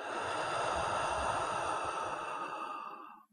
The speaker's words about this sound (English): Take a slow, deep breath in through the nose and let it out through your mouth.